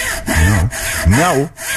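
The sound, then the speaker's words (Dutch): A saw cuts through a tree in loud, rasping back-and-forth strokes, each stroke carrying a wavering, pitched whine that rises and dips, with short breaks between strokes. “Nou, ja, die boom gaat er bijna aan. De zaag, ja, ja.”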